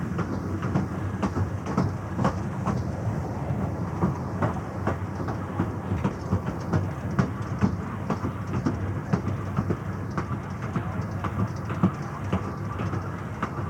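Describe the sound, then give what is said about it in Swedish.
Clickety-clack of two-axle railway carriages riding unsteadily on narrow-gauge track. A constant low rumble carries many quick, regular wheel clicks at an even moderate level throughout, with no voices. “det där var ljudet av tvåaxliga vagnar på smalspår”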